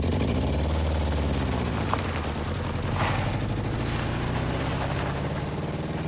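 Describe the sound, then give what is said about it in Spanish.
A van's engine running in the middle of the desert, a low, continuous rumble at a fairly quiet level, steady and unbroken from start to finish. “El hombre arranca y se marcha dejando solo en mitad del desierto a Ferris.”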